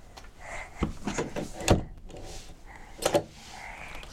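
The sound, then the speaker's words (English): A few sharp clicks and clunks of a door being locked, with one louder knock in the middle and a quick double click near the end. No voices. “Yes, I locked the door.”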